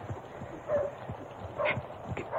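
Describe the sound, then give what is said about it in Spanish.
A horse's hooves clip-clop as a rider approaches in the rain. A soft, uneven series of low thuds plays against a faint hiss. “Ahí viene uno de a caballo. Alguien pasó.”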